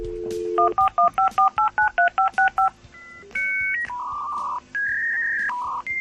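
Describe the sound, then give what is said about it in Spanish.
Dial-up internet modem dialing and connecting: a steady dial tone, then a rapid string of touch-tone keypad beeps, then loud, sustained electronic handshake tones that jump between pitches, with no voices. “¿Y cuánto tiempo teníamos que esperar a que esa cosa conectara? Bueno, es lo que sufríamos, ¿no?, cuando Internet llegó a nuestras vidas.”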